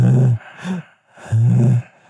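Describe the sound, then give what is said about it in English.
Heavy, wheezy breathing from an overweight man: three loud, rough breaths with a low voiced rasp, the middle one shorter and softer, separated by brief pauses. “when we play this clip, I just want you to turn it up just a little. And you can hear this fat fuck breathe.”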